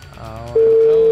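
Phone ringing tone on an unanswered call: after a short, quieter murmuring lead-in, a steady single-pitched electronic tone starts abruptly and holds loud and unchanged to the end.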